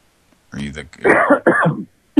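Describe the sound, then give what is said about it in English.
A person coughs and clears their throat while leaving a phone message: rough, voiced bursts over about a second and a half, then a short sharp click at the end. “I don't got a little cough going there”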